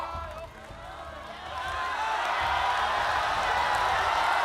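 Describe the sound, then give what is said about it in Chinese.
Studio audience at a singing competition cheering on a contestant. The noise dips briefly, then swells into a sustained, loud roar of shouts and encouragement. “现在全场的朋友都在自发的为娃娃加油。”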